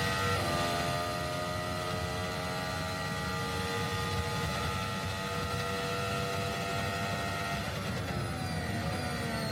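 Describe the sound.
Formula 1 car engine running flat out through a sequence of left-hand corners: a loud, sustained high whine with layered harmonics over a broad roar, its pitch holding fairly steady before a brief shift near the end.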